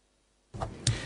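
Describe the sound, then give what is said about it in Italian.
Handling noise as a microphone is swapped: silence, then a sudden bump, a short stretch of low rumble, and a second, louder clunk. “Cambio il microfono.”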